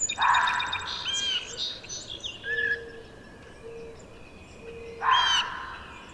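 A red-winged blackbird and a mourning dove call, with harsh, buzzy blackbird calls at the start and again near the end and soft, low cooing tones between them, all fairly faint.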